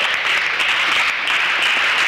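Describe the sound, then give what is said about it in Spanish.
An audience applauding during a Spanish-language morning church service, producing a loud, dense, even roar of clapping that holds steady for about two seconds. “Denle un aplauso al Señor en esta mañana.”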